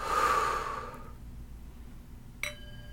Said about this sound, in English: Take a deep inhale. exhale, let it go.